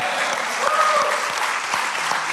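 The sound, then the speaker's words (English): An event audience bursts into applause after a question from the crowd: dense, continuous clapping at a steady, fairly loud level throughout. “Let's clap it up for that question.”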